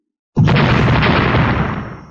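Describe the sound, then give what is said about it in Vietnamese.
A loud explosion sound effect bursts in suddenly after a brief silence. Its dense, deep roar holds for over a second before slowly fading. “Một trận thanh âm nổ thật to, càng thâm thúy vang hơn là cả vực ngoại không gian.”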